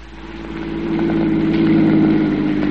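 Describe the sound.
A car engine runs steadily during an afternoon drive in the country, a smooth mid-pitched drone that grows slightly louder over the first second and then holds an even, continuous hum.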